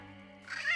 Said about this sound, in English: Her pet cat, said to be her familiar, has also been seen. Some guests have reported being scratched and clawed in the middle of the night. It's not also uncommon to hear yowling at the witch's room,